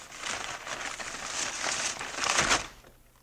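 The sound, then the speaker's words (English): Paper crinkles and crumples as a birthday present is unwrapped. The soft, continuous rustle is made of many small crackles, swelling toward the end before it fades out. “Please, Paul, it's his birthday. All right. Go ahead, unwrap it.”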